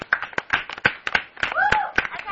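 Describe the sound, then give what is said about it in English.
A few people clap after a child's joke, with scattered irregular hand claps over a cheer and voices talking throughout. “everybody give him a clap”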